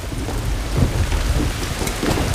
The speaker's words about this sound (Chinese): 下雨了，路滑，慢点啊！